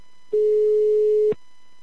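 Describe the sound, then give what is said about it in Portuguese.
Telephone line tone of an outgoing call, a single steady mid-pitched beep that holds for about one second and then cuts off cleanly, with nothing else around it. “Eu vou ligar pra Márcia Firmino Dantas.”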